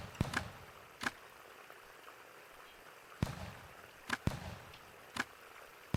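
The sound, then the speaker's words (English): Gunshots in a Civil War-era video game, An Occurrence at Owl Creek Bridge: several sharp, cracking reports at irregular intervals over faint background noise, with no voices. “Okay, I'm getting shot at.”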